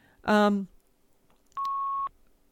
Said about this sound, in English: I'll turn the beeping down.